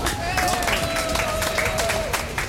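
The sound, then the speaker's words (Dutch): A crowd applauding a contestant, with dense, steady clapping that keeps a constant loudness throughout as a voice talks over it. “geef een heel groot applaus”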